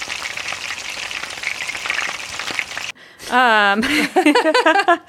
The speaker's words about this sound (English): Is it time to make the bacon? Ooh. Yeah, I guess we'll just quickly make the bacon.